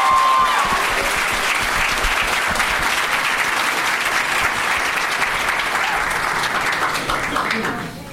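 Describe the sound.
Audience applause for a contestant leaving a game show, a dense, loud, steady clapping that holds for about seven seconds before tapering off at the end.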